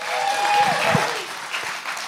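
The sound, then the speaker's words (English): An audience applauds to welcome a pastor at a service. Dense, steady clapping holds loud throughout and eases slightly toward the end. “So would you please give a warm welcome to Pastor Ron Williams.”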